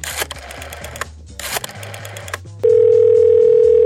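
A telephone dial tone sounds as a call is placed in Brazil: a loud, steady, unbroken single-pitch tone starts about two-thirds of the way through, after a stretch of brief, mixed clattering noises.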